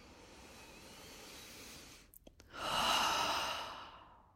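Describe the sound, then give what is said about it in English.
A deep breath, heard as a long, airy, breathy swell that rises and then fades away after a brief hush, set against a steady soft hiss that runs through the whole moment. “Deep breath.”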